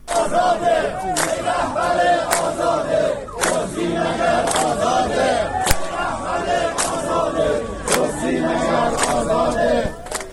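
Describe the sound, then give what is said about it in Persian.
Protesting social security retirees chant slogans against government officials as they demand a promised pension increase. A group of voices calls out in loud, rhythmic bursts with brief dips between phrases. “این صدای گروهی از معترضان در عراق است.”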